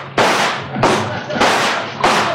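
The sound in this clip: Gunshots are fired at crocodiles from a raft in a dramatised scene. Four loud, sharp blasts come at an even pace, and each one fades off in a decaying tail before the next.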